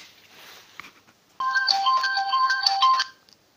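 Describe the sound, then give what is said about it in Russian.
A phone rings with an incoming call: a bright electronic ringtone melody of stacked tones that plays for about a second and a half after faint background noise. “Потом будет от него звонок через 15 минут.”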